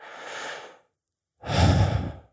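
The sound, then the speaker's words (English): Mouth breathing: two breaths drawn through the mouth, first a soft airy hiss, then after a short pause a louder, fuller and rougher breath, with no talking. “So imagine right now, if you were to breathe in through your mouth,”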